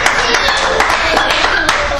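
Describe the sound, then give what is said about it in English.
An audience clapping hands during a church service: many sharp, loud claps in a quick rhythm over a steady bed of crowd sound, with voices also present. “Clap your hands and tell the Lord thank you.”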